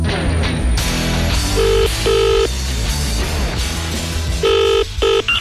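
A telephone rings in two double-burst pairs, each pair two short electronic trills, over loud, dense music.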